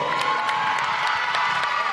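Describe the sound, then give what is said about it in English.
Audience at a girls' high school basketball game applauding during halftime, a loud, continuous crowd roar with clapping, cheering and scattered shouts. “Everybody's applauding.”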